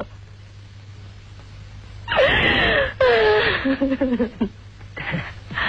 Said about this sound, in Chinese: 好了好了，快别哭了，孩子。